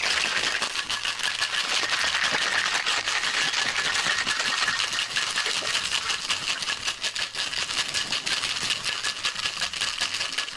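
Ice rattling inside a cocktail shaker as a cocktail is shaken. The clatter is loud, dense and continuous, running steadily for about ten seconds with no pause.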